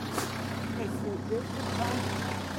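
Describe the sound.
Truck engine idling at a market while the vehicle is unloaded: a steady, low rumbling hum with no clear changes throughout, faint voices in the background.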